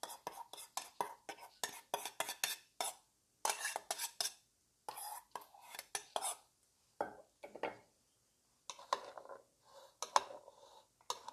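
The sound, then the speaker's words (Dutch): Salad ingredients being stirred in an overfull bowl, heard as many quick, faint scraping clinks of utensil against the bowl in uneven bursts, with brief pauses between stretches of stirring. “Nou, en dit mag nu bij de salade. Ik kan bijna niet meer roeren, zo vol zit die kom.”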